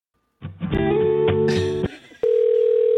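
Telephone line tones play while a call is being transferred: a burst of layered electronic tones gives way to a single steady tone that holds to the end.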